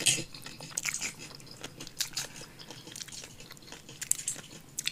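Crisp crunching and wet chewing as a woman bites into a pickle for ASMR: many sharp bites and squishy chews in an uneven rhythm, fairly loud, with no talking.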